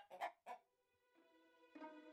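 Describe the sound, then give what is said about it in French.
A hen clucking as she lays an egg: two short, sharp clucks, then a faint, drawn-out, tonal cackle that holds steady to the end. “« Bonjour, ma jolie poule. Pond, s'il te plaît, » dit le géant. Et la poule pondit alors un œuf d'or.”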